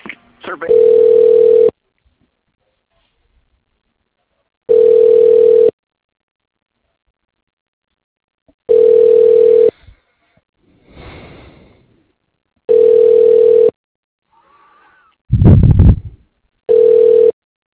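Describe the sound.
A business telephone line ringing while the call is transferred to voicemail, a steady pitched ring tone pulsing about every four seconds, five rings with the last cut short, and brief scuffing noises in between.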